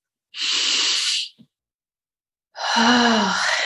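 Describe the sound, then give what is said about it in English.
A person takes a deep breath, heard as two long, airy breath sounds separated by a short pause, the second one breathier and slightly voiced like a sigh, with no talking. “just take a deep breath, like right now, just take a deep breath in.”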